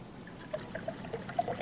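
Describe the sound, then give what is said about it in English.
Liquid poured into a glass until it is about half full, a faint trickling stream with a few small splashy peaks. “Go ahead and take that and pour it in there until you feel like it's about half full.”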